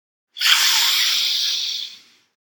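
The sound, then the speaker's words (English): One long, deep breath in during a guided breathing exercise, filling belly, chest and head: a steady airy hiss held for about a second and a half before tapering off, with no talking. “you will breathe deeply and filling up your belly, up to your chest, up to your upper back, shoulders, and neck, and through to your head, the top of your head. Try one with me.”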